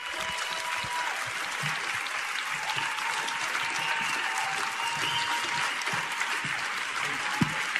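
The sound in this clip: Dense, sustained audience applause welcomes a guest speaker at a Christian ministry event. The clapping stays steady and loud for about eight seconds without any talk.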